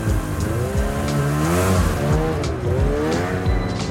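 A snowmobile engine revs as it carries two riders off through deep snow, its loud motor note repeatedly swelling and dipping in pitch without a break.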